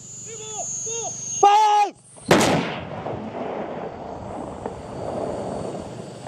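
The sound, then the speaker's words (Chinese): A self-propelled artillery gun fires one round: a single sharp, loud blast followed by a long rumbling decay. “这也是我能够达到的离火炮激发最近的位置了，在这个掩体后面。 一发装填好，”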